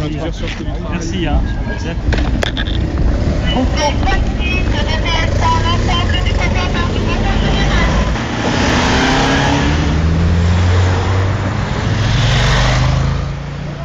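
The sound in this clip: A car accelerates hard at high speed as a government minister is driven off toward his train station after a fruit growers' congress. A loud, continuous engine roar whose note climbs in the second half, with voices faintly under it at the start.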